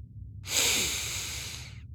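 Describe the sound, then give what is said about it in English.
One deep inhale by a man, a long airy hiss that swells quickly and then slowly tapers off over more than a second, heard alone against a quiet background. “The Doctor inhaled deeply as if taking in a breath of fresh air”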